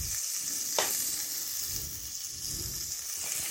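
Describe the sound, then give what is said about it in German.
Garlic sautéing in a tablespoon of butter in a pan gives a steady, soft sizzle and hiss throughout, with low stirring scrapes and one brief sharp click early on. “habe ich in einem äh, Esslöffel Butter etwas Knoblauch angeschwitzt”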